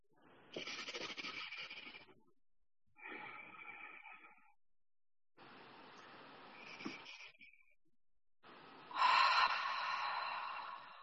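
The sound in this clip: Breathing during a guided group breathing exercise on a video call: four long, airy breaths of one to two seconds each, separated by short pauses, with no talking.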